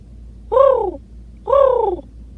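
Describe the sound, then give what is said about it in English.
A human voice imitates a pigeon's cooing with two drawn-out, hooting coos about a second apart. Each coo is a smooth, medium-pitched tone that sags slightly in pitch, heard alone over a faint low hum. “However, when I first made this noise, my brain told me it was a pigeon, and who am I to argue with that organ? So the quote pigeon is,”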